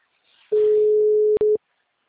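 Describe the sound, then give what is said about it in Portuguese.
A telephone tone sounds while a phone call is being placed: one steady mid-pitched electronic tone holds for under a second, breaks off with a click, then returns as a short final burst. “Eu vou fazer uma ligação agora, dá-me, escuta.”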